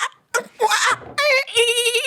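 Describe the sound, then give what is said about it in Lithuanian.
A person's voice imitates dolphin sounds: a few short, high squeaky bursts, then wavering, bleat-like squeals, loud and without other talk. “Aš manau, kad taip delfinai daro.”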